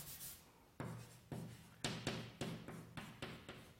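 A pen scratches out mathematical symbols by hand. Many quiet, rhythmic strokes follow one another in quick succession, each with a soft papery rasp.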